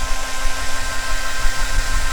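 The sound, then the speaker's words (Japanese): A hair dryer blows strong warm air in a loud, steady whoosh with a faint constant motor hum and whine beneath it. There are no pauses and no talking. “ドライヤーは最初強めの温風にして乾かしていくのがいいんですよ。”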